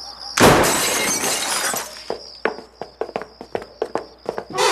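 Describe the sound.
Glass shatters in one loud, sharp crash as something is forcibly broken open, followed by a run of quick knocks and clattering impacts in an uneven rhythm.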